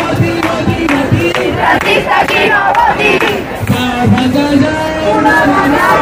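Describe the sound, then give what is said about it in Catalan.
About 2,000 protesters at a housing demonstration in central Barcelona chant loudly in unison, a rhythmic crowd roar that continues throughout. “És el so de la mobilització en record de la Mari Carmen”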